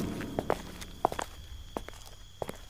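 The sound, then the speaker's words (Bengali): A girl's footsteps as she walks beside a companion: several soft, slightly uneven steps, with a few sharper heel strikes standing out over a quiet background hum. “আসুন আমার সাথেই আসুন মেয়েটা উপর নিচ মাথা নাড়িয়ে শোভনের সাথে হাঁটতে শুরু করল”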